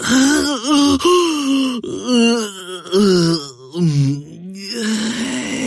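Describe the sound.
A narrator performs a drawn-out, voiced yawn for a sleepy talking chair in a story. It sounds like a long wavering moan, swelling and dipping in pitch several times, with no words.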